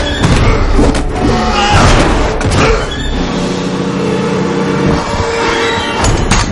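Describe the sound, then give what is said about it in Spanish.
Heavy slams and crashing thuds as a mummy repeatedly hurls a man against a ceiling in an action-fantasy film scene. The impacts are loud and dense, layered over a continuous rumbling, churning background. “La momia lo coge de los tobillos y tira de él. La momia lo lanza contra el techo repetidas veces.”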